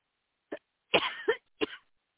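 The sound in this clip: A person coughs from a tickle in the throat: a few short, dry coughs, the middle one longer and rougher with two pushes. They stand alone in quiet, with no talking.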